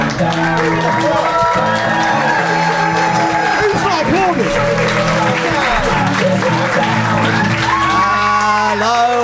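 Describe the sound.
Crowd cheering, shouting and whooping with applause at a live comedy show at Ocean Beach in 2023, loud and unbroken for the whole stretch.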